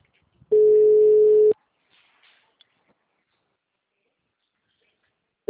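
Telephone ringback tone on a call nobody answers, before voicemail picks up: one steady, loud, mid-pitched tone about a second long, a long near-silent gap with faint small noises, then the next tone just starting.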